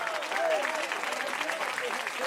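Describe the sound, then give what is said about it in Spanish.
A church audience applauds in a soft, steady wash of clapping, with voices calling out over it for a couple of seconds. “Después ese aplauso si es para Dios.”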